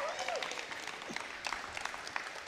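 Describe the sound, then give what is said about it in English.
Applause from an audience welcoming online viewers and people at an outdoor venue: steady, dense clapping that is fairly faint, with a brief trace of voice mixed in. “We'll do a round of applause in just a second and welcome folks online, our YouTubers, our podcasters, and most importantly, our folks right out there at our outdoor venue. We love you guys. We're glad you're here. Can you welcome them with me?”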